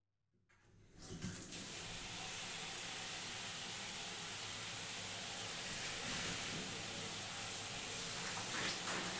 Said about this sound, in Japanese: じゃあ、このままシャンプー流していきますね。